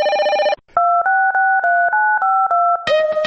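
Telephone keypad tones dialing a number: one opening tone, a short gap, then seven quick, even beeps in a row that step between pitches, followed by a different tone.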